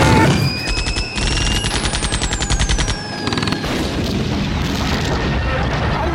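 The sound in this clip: Gunfire aimed at an enemy DShK heavy machine gunner: a rapid, rhythmic volley of loud shots fills the first few seconds, then gives way to a dense, continuous roar of firing.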